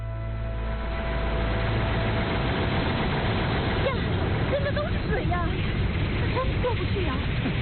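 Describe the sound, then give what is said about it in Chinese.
A tractor engine runs while towing a harvester, a low, steady droning rumble that continues throughout, with people talking over it in the second half. “董立生舍不得，领着队里的姐妹开着两台机车，挂着收割机就过去了。”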